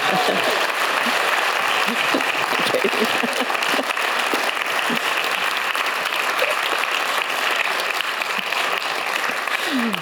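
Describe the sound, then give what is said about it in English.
Sustained audience ovation at a live literary event in Christchurch, welcoming a former Christchurch mayor as guest. Dense, even clapping fills all ten seconds at a steady level without a break. “oh, what a wonderful ovation. Welcome, Lianne.”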